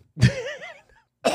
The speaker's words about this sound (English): Just coughing up water.